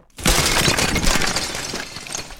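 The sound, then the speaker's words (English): Glass shatters and crashes as derailed railway wheels smash into a station house during breakfast. A sudden loud burst is followed by a dense, sustained crash and tinkle of breaking glass that runs to the end. “the house rocked, broken glass tinkled, plaster peppered their plates.”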